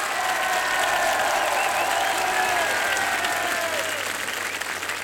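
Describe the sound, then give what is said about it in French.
Festival audience at the Châteauvallon jazz festival applauding for an encore. Sustained, dense clapping holds steady throughout, threaded with a few thin whistles. “Le public du festival de Château-Vallon en redemande, comme vous pouvez l'entendre.”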